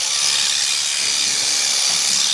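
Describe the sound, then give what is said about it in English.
Shears removing wool from a pregnant ewe carrying twins, a first-time lamber kept for wool: a steady, loud hissing whir with no breaks or change in pitch. “It's important that you stay on the skin so you get all the wool off in one go and you're not chopping it up in half.”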